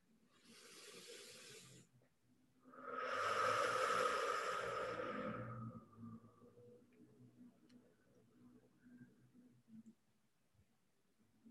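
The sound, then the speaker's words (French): Deep breathing, with slow exhalations through the mouth: two long, soft, airy rushes, the second louder and longer, over faint sustained background tones. “Et reprendre trois profondes inspires et Je vous invite à bien, bien expirer par la bouche comme au tout début de la pratique.”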